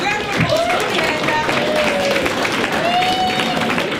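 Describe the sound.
Applause and crowd noise for the overall winner of the day, who drove a Toyota Hilux, hold steady and loud throughout, with voices and some whistling tones rising over the clapping.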